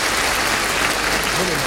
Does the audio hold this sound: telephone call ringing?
no